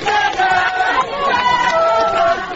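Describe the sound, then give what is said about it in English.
Displaced women and children sing together in a camp at Buhimba, just outside Goma, a steady group chant of sustained, high voices with crowd noise throughout. “Displaced women and children sang and danced on Friday, welcoming the arrival of UN refugee chief Antonio Guterres.”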